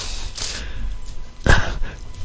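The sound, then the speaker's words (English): A dog whines and yips, eager to be let outside, with brief restless vocalizations and one louder burst partway through. “one of our people here is going crazy. The dog out there with the tail, it wants to go outside, I guess. So hopefully my wife will take care of that disturbance going on there”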